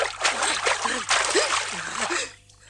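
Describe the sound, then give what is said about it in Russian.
Hands slapping the water of a stream send up dense, continuous splashing and spray that stays loud and fairly even before thinning out near the end. “Бросает ружье в ручей, подходит к Зауру, садится рядом, тоже бьет по воде руками, поднимает брызги.”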